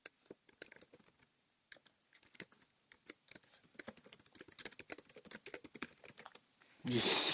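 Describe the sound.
Rapid typing on a computer keyboard, a long run of irregular light clicks that grows denser and louder, then cut off by a sudden loud burst of steady noise at the end.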